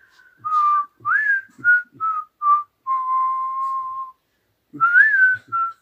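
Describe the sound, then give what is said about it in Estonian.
A person whistles a loud, clear run of short notes, some bent upward, then one long held tone, a brief pause, and two more quick notes. “ja vilised just. sihuke.”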